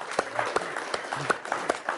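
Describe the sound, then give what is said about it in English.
Audience round of applause for a seminar attendee, heard as uneven, fairly sparse clapping with distinct sharp claps over a low murmur. “Round of applause, please, for Andrew.”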